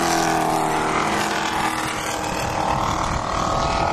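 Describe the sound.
Race vehicles roar past close to a dirt race track, a loud, sustained engine drone with steady harmonic tones that fills the whole clip.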